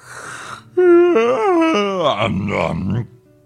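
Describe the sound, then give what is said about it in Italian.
A voice imitates a wolf's big yawn on waking, one drawn-out groaning vocal that starts loud and steady, then wavers and sinks lower before trailing off into quiet. “con un grosso sbadiglio, il lupo si risvegliò”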